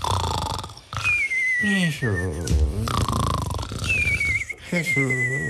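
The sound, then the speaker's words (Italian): Deep snoring from two sleepers after drinking comes as loud rasping inhales, each followed by a high whistling exhale. Two full cycles play with no other sound. “Pico e Fauno, che cominciano a bere tutti contenti, finché si addormentano russando profondamente.”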